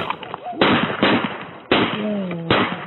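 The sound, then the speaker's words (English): Four sharp gunshot bangs go off during a police confrontation that followed a taser struggle. The shots are loud and irregularly spaced, with a brief voice heard between them. “Shots fired!”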